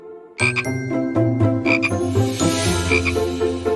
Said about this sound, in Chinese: 青蛙耶。